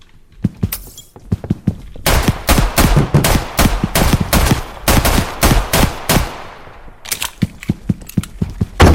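Rapid 9mm gunfire rings out in a video game: a few scattered shots, then a long run of fast, punchy blasts, a brief gap, and a final string of sharp shots.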